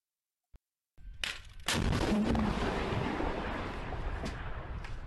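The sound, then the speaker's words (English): Artillery fire from Russian forces toward a Ukrainian position: a faint click, then a heavy blast followed by a second booming report that rolls into a long, loud, sustained rumble. “This is Russian forces firing toward a Ukrainian position to see the type of weaponry that they use here.”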